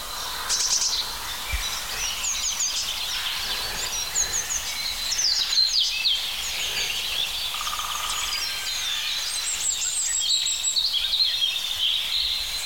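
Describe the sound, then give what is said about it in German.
Rippling European robin song with harsh, raw crow calls, a steady stream of bright high chirps and trills over a constant faint background hiss. “Dieses schöne plätschernde Rotkehlchen und diese rauen Rufe. Eigentlich doch Krähe, oder?”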